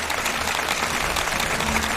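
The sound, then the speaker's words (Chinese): An audience applauding a percussion teacher after a demonstration. Many hands clap in a dense, continuous patter that holds at a steady, fairly loud level throughout. “我们再次把掌声献给我们的蒲老师，谢谢您。”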